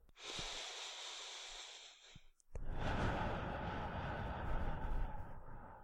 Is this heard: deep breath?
yes